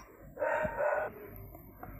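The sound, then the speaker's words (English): A dog barks in the background, a brief, faint burst of barking over low room noise. “Sorry about the dog barking in the background.”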